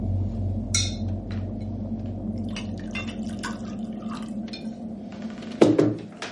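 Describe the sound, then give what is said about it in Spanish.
Whisky poured from a bottle into a glass on a desk: soft trickling liquid and light glassy clinks, with one sharper clink of glass near the end. “Observa una botella de whisky sobre el escritorio. La coge y se sirve un vaso.”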